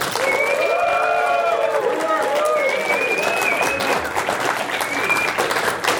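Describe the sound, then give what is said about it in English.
Loud applause and cheering from an audience at a live event, cheering for Q-Bert: dense, continuous clapping with whoops and whistles for about six seconds. “Let's hear it for Q-Bert on 3, 2, 1.”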